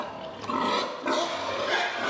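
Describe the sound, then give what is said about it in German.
A herd of young, unruly sows in a pig barn squealing and grunting at feeding time, kept in individual stalls. A loud, harsh chorus of overlapping calls swells twice, with no talk. “In dieser Herde sind viele junge, ungestüme Sauen. Deshalb sind sie beim Fressen in Einzelboxen.”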